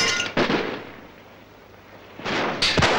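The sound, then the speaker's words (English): Gunfire in a battle: one loud shot rolls into a long, fading rumble, then two more sharp reports crack close together near the end. “As Haney returns intermittent fire, Ronald watches from the next room.”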